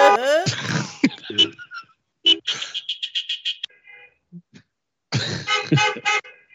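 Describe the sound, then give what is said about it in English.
Car horn toots ring out as a run of short, bright bursts, some clustered in a quick stutter, separated by gaps of near silence, with a little talk mixed in. “I just like the one toot. The one tooter is the one that gets me.”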